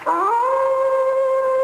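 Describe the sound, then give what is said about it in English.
A single hound's howl from a drama sound effect set on the moor: one long, loud cry that rises briefly at the start, then holds a steady, eerie pitch throughout, with no other sounds. “When the people of the moor hear that cry, what do they say it is? They say it's the cry of the hound of the Baskervilles, seeking its prey.”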